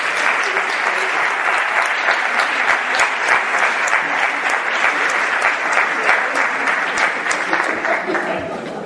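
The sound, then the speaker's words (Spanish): An audience applauds as people are called up to the stage, dense, sustained clapping lasting about nine seconds that stays steady and fairly loud, then tapers slightly at the end. “Un aplauso a Merche.”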